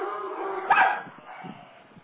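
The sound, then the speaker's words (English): Dogs bark during a group conversation: a rough, fairly faint run of barking and yipping with one louder burst near the middle, and no talk over it. “sorry for my dogs”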